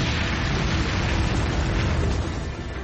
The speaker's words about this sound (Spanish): Sobre la ciudad de Nagasaki. Nuevamente, un B-29 arroja la bomba atómica.